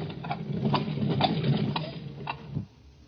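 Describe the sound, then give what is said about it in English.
Taxi cab engine idling, a steady low rumble with faint, regularly spaced ticks that cuts off abruptly near the end. “There's a cab. Let's hop it and ride the rest of the way.”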